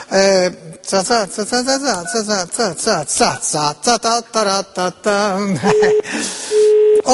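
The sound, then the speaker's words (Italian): Italian telephone busy tone: two steady, mid-pitched beeps near the end, partly under a voice that talks throughout. “questo appare occupato, del resto è normale, i telefoni sono fatti per usare, per essere usati”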